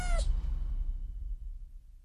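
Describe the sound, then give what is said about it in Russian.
A kitten gives a single short, high squeak with a falling pitch right at the start, faint, followed by a low rumbling background. “Но глупый котенок не хотел уходить. Он цеплялся когтями за слезшую с ноги колготку и все пищал и пищал.”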